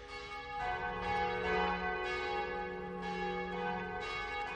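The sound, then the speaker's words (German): Christmas church bells ring from two churches in Berlin: loud, overlapping metallic peals with fresh strikes roughly every second, each new clang layered over the sustained hum of the previous ones, with no voices. “Hier läuten die Glocken. Das sind übrigens die Glocken, Moment, die Weihnachtsglocken der Johanneskirche und der Marienkirche in Berlin.”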